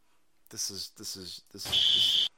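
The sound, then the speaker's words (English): A fire alarm gives a single sustained, high-pitched electronic beep right after a stretch of someone talking. “The fucking fire alarm. Beep, beep, beep.”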